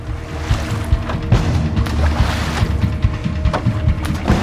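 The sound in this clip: Rowboat rowed fast across a lake, with oar strokes splashing and knocking in a quick, uneven rhythm over constant wind and water noise. It stays loud throughout, with no voices.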